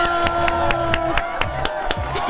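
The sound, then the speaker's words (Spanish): Applause from a crowd with evenly spaced, rhythmic claps striking at a steady pace over a held tone, moderately loud and unbroken to the end. “¡Éale! ¡Aplausos!”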